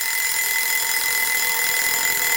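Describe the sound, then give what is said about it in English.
A small alarm clock rings in one steady, unbroken stretch, bright and metallic, holding the same level from start to finish with no talk over it. “So that's what that little alarm clock is about.”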